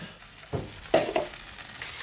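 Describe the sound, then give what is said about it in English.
Stirring and sizzling of a cinnamon caramel sauce cooking in a pan for sticky toffee pudding, heard as a few soft scraping bursts over a low background hiss, with no talk. “I'm just making a cinnamon caramel sauce to go with it.”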